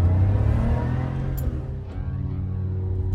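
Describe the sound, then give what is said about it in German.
Engine of a bronze Porsche sports car driving off toward the ocean: a loud, steady low rumble with a slight revving swell, continuous throughout and with no voices. “Dann fahren wir in seinen bronzefarbenen Porsche in Richtung Ozean.”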